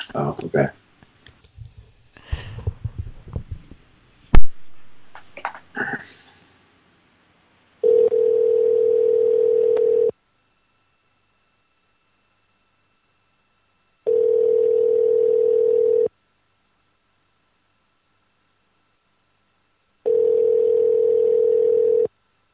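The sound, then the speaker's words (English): Ringback tone of an outgoing telephone call: three long, steady tone bursts of about two seconds each, separated by longer silences, after a stretch of talking at the start. “Say, I think actually you hung up on me accidentally. I'm calling Toby.”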